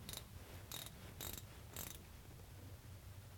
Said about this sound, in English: Then just snug it up with a 3/8 drive ratchet.